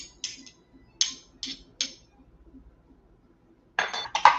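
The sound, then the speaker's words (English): A whisk clinks against a bowl while mixing buttermilk and plain yogurt, first with a few sharp, spaced taps, then with a quick flurry of louder clinks at the end. “I've got a quarter cup of buttermilk to go in with my plain yogurt. Mix that up. Actually, I'm going to use my whisk to mix it up.”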